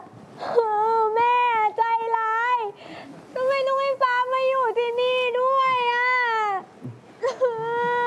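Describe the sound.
A young child crying, long high wailing sobs that waver in pitch, several drawn-out cries separated by short breaks, loud and close.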